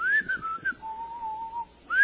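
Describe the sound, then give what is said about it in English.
Clear whistling carries the melody of a song: a few quick gliding notes, then one long steady held tone, then a higher whistled phrase that begins again at the end. “Whose idea was that? To whistle in that? It was awesome. Who does the whistling?”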